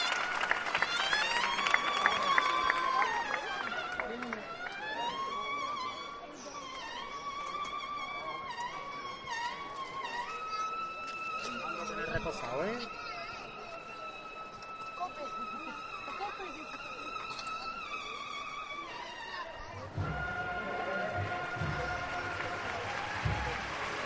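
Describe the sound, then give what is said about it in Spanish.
A crowd applauds the bearers carrying a religious procession float along a street: steady, dense clapping that lasts throughout, with a voice talking over it and tonal sounds mixed in. “Los aplausos dan fe del esfuerzo que están haciendo los costaleros.”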